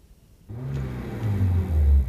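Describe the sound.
Car engine rumbling as the car is driven, a low hum that starts after a quiet moment and grows steadily louder and rougher.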